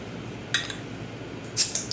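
A drink being cracked open, faint in the background: a light click, then a sharper snap with a short fizzy hiss.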